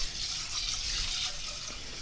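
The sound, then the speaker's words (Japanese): Water pours steadily into a pot holding two go of rice seasoned with cooking sake and salt, about 400 ml up to the marked line, as a continuous, even gushing hiss with no pauses or voices. “2合の目盛りに合わせるとだいたい 400ml ですね、お水が入っていきます。”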